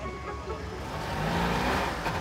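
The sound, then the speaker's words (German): Engine rumble from tuned cars rolling onto a fairground in Mölln, a dense low drone of motors that swells slightly louder toward the middle and holds steady to the end, with no voices. “Auf der Festwiese in Mölln rollen die Tuning-Fans aus dem Norden an.”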